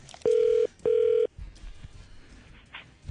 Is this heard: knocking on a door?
no

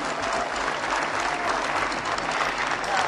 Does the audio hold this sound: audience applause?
yes

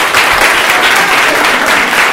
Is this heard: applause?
yes

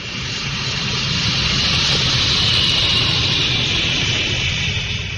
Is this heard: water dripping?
no

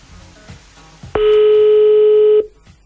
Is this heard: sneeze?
no

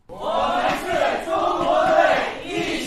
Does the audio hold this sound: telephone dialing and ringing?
no

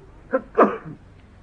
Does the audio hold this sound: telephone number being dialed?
no

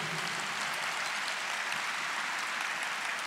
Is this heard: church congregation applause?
yes

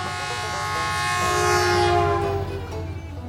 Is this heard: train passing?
yes

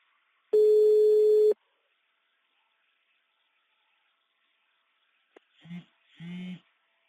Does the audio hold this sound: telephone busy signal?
yes

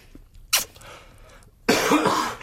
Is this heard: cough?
yes

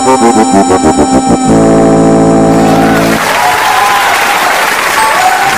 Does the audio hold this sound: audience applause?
yes

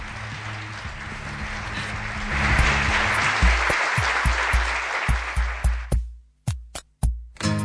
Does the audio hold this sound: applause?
yes

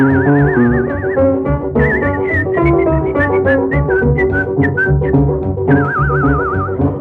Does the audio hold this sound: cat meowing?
no

